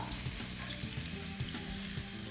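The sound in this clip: Crisp crunching as fried, bread-like dough is cut, with several soft, regular crunches over a steady faint hiss.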